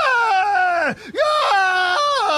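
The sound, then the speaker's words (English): A sports color analyst screams during an overtime interception in a college football game. The sustained, high-pitched yell slides downward, breaks off for a moment about a second in, then resumes and drops in steps before ending. “is that the color analyst screaming over the play-by-play?”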